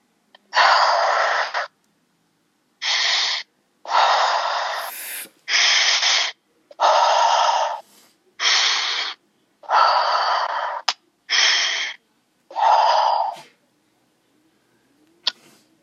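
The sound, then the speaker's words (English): Heavy, deliberate breathing as a person inhales and exhales forcefully about five times. It comes as a steady series of loud, breathy rushes separated by short pauses, with no talk. “Just breathe in and out 5 times heavily again.”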